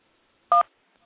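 A single telephone keypad tone from pressing the 1 key: one short, steady dual-pitched beep heard alone, with quiet surroundings before and after.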